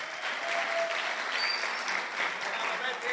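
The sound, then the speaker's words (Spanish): Audience applause at a live talk, with dense steady clapping that stays loud and even throughout without pause. “Aplausos.”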